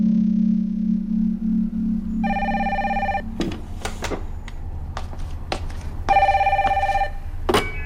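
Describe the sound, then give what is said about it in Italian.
A telephone rings with a call from reception: two bursts of trilling bell, each about a second long and separated by a few seconds. Sharp clicks and knocks sound between the rings over a low steady hum. “Sì? È la reception, professor Sagan. Chiamata per lei da New York.”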